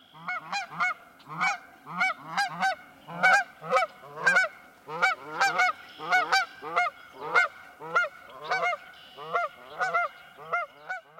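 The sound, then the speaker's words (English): Canada geese honking, a long series of harsh, nasal calls repeated in a steady rhythm, each honk distinct and loud with no other sound between them. “If you guessed Canada geese, you're right.”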